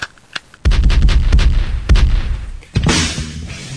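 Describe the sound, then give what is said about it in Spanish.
Gunshot sound effects: a small sharp crack, then a string of loud booming shots with ragged echoing tails, and a final heavy blast near the end, heard alone. “El disparo para él.”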